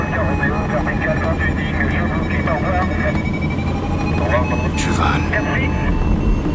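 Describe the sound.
A propeller airplane with a 180-horsepower engine takes off from a runway, its loud, steady engine drone and dense low rumble running throughout under a voice speaking French.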